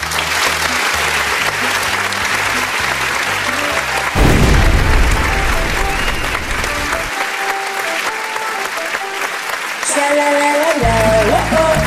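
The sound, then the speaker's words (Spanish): An audience gives a singer strong, steady applause, a continuous wash of clapping with music playing underneath throughout. “Vamos a darle un fuerte aplauso.”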